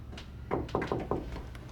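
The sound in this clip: A bedroom door opening, heard as a few soft knocking thuds in quick succession over a faint, steady background hush.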